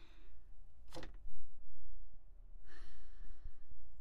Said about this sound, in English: I think it's because we're going to take a deep breath together, y'all.